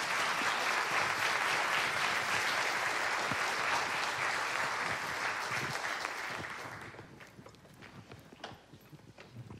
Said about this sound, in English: Would you please give a warm West welcome to our professionals that are here with us this morning?